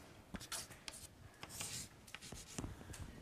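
Faint scratchy strokes of writing while a formula is derived during a lecture on magnetic flux, with irregular short ticks and a few longer rubbing strokes, heard alone without talk.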